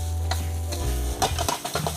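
Cooked rice is pressed and stirred in a hot pan over a gas stove while stir-frying, giving soft scraping and pressing strokes over a steady sizzle and a low continuous hum.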